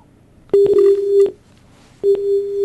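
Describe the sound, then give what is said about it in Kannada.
Telephone line tones after a dropped call: two loud, steady electronic beeps at one pitch, separated by a short silence. The second beep is cut off at the end. “ದೂರವಾಣಿ ಸಂಪರ್ಕದಲ್ಲಿ ಮತ್ತೆ ಕಡಿತ ಉಂಟಾಗಿದೆ.”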